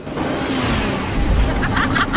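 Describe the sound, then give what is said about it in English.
A car drives over a hump on a muddy path beside a large stretch of water, with a steady, fairly loud rumble of engine and tyre noise throughout. “The cars continue past a large stretch of water. One of the vehicles goes over a hump.”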